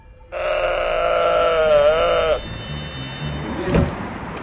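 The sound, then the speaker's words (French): A lone lamb bleats once, a long, loud, quavering call of about two seconds whose pitch wobbles throughout before it cuts off into quiet background. “un agneau, quand il est seul, c'est même pas la peine, c'est encore pire. Ils supportent pas d'être seuls, ces bêtes-là.”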